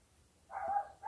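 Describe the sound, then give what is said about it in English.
A dog barks twice, fairly faint and mid-pitched. The first bark is longer, and a second begins just after it, with no talking over either. “I'm sorry about that. It's a dog.”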